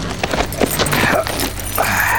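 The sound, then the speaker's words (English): Hoofbeats of a horse being led down a boarding ramp from a train out onto grass: a steady run of clip-clop steps over a broad, noisy rumble, with no voices. “Then he led the horse down and out into the grass.”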